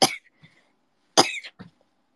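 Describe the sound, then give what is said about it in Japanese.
Sudden harsh coughing from a person, two loud bursts each trailed by a short weaker cough, heard alone without talk. “突然咳込み出したんやけど どうした呪われたか”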